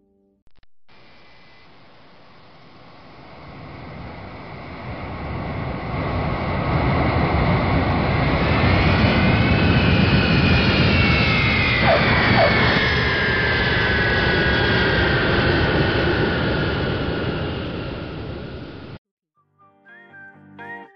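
Steady jet engine roar with a whistling hiss inside an airplane cabin during its descent to Beijing Capital Airport. The noise swells over the first few seconds, holds loud and constant, then cuts off abruptly near the end.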